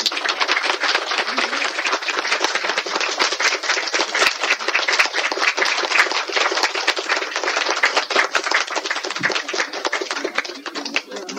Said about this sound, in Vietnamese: Bây giờ quý vị vỗ tay đi.